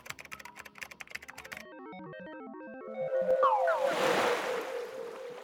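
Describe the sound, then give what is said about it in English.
Rapid clicking keystrokes on a computer keyboard in a short burst, followed by stepping electronic tones and a swelling, whooshing noise that lingers to the end. “Just type it and let's groove!”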